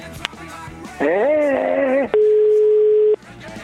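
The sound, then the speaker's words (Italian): A telephone ringback tone while calling someone, first a warbling tone for about a second, then a steady, single-pitched tone of similar length, both loud, with voices faintly present before them. “io vorrei provare a chiamare il presidente Ferrero. Proviamo. Presidente?”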